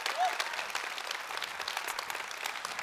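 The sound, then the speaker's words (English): A church audience at the Capitol Hill campus claps to welcome its other campuses. The applause is fairly faint, even and continuous, a dense patter of many hands throughout. “let me get you guys at the Capitol Hill campus where I am to put your hands together and welcome all of our other campuses that we join together every weekend”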